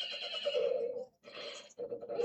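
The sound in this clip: Horse neighing loudly while being saddled, a harsh whinny broken into a few bursts by short pauses, with no talking.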